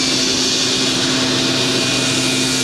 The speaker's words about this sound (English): none of what I'm saying will come out because of the leaf blower. Oh, a leaf blower.